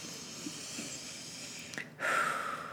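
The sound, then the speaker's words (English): A deep breath taken alone, with no talk: a quiet, steady airy stretch, then a brief pause before a louder, rushing exhale fills the last second. “So let's just breathe a little here, which I'm just gonna do now because I've been talking a lot”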